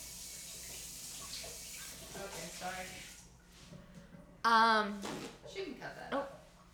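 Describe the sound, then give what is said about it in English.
Water running down a household drain as a steady rushing hiss beneath people talking over it. “There's so the drain's running now. I was gonna talk, and then there goes the drain.”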